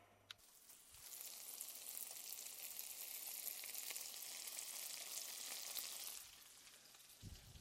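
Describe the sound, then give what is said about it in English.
Ramps sauté in a pan with a steady crackling sizzle that holds quietly throughout, then eases slightly toward the end. “That's the ramps sauteing to turn the heat down a little bit.”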